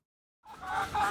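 Chickens clucking in their coop in Mpumalanga province, eastern South Africa. A short silence gives way to steady, overlapping clucks that continue to the end.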